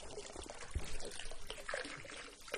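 Water runs from a tap into a dipper at Mangwolsa, a Korean Buddhist temple: a faint, steady trickling pour with small splashes.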